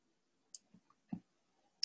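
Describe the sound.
Quiet computer mouse clicks while ending a screen recording: a few brief, sharp ticks spaced irregularly, with near silence between them.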